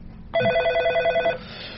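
A telephone bell rings in a single trilling burst lasting about a second, then stops, leaving a low background hum.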